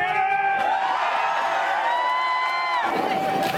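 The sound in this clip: Hundreds of onlookers cheer a man's final winter plunge into a Chicago lake, diving from a ladder. A steady, loud wash of crowd noise carries sustained whoops and shouting voices.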